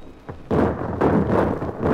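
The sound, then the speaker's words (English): A ship's starboard guns fire together in a somewhat ragged salvo: a few heavy, deep booms in quick succession, each rumbling on into the next. “An infernal din of guns broke out as we approached the channel. Well, our starboard guns can speak together after all.”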